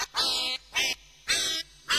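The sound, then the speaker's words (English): Duck quacking sound effect: four loud, nasal quacks that are evenly spaced and heard alone. “They get the duck. I said duck, all right.”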